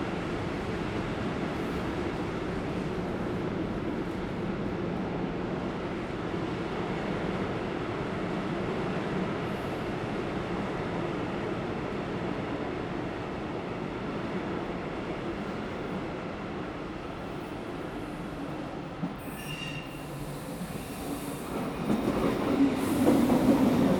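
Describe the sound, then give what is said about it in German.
An S-Bahn commuter train pulls into a station in Hildesheim, Germany, with a steady low rumble and rhythmic clickety-clack of wheels that grows louder near the end, joined by a brief high wheel squeal. “S4 von Bennemühlen. Weiter als S4 nach Bennemühlen über Emmerke. Abfahrt 7.7. Vorsicht bei der Einfahrt.”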